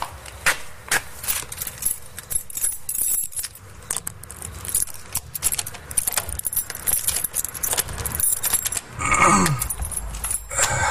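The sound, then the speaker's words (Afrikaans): Keys jangle and work the lock as a front door is unlocked: many metallic clinks, rattles and sharp clicks in uneven bursts, fairly loud, with no talk over them. “ek moet die voordeur oopsluit”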